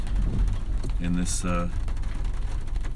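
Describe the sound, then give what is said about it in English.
Rain makes a steady, dense hiss that runs through the whole clip, with a voice speaking briefly over it. “You can hear the rain.”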